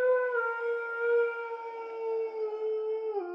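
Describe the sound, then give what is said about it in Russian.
A long, drawn-out howl in an underground corridor: one sustained, steady tonal wail that holds its pitch and dips slightly just before it ends. “тишину подземного коридора разорвал протяжный вой.”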